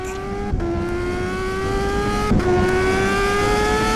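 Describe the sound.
A car engine accelerates and revs with a continuous droning note whose pitch climbs gradually, briefly interrupted twice before carrying on. It is fairly loud and steady, with no voices.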